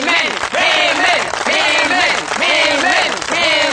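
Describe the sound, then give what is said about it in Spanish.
Loud, steady audience applause with cheering voices mixed through it, continuing without a break across the whole moment as a studio crowd welcomes a guest. “Pido un fuerte aplauso para Bernardo”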